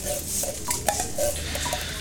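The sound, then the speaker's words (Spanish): Faint ambience of Omar's small café: a few light clinks of dishes and cutlery over a steady low background hum, with no talking. “Nos metemos en el cafetín de Omar a charlar sobre temas poco importantes.”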